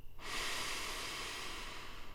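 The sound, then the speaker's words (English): A full inhale through the nose during a guided relaxation exercise, a steady airy hiss that starts abruptly and holds for about two seconds, alone without any voices. “Take a full breath in through your nose”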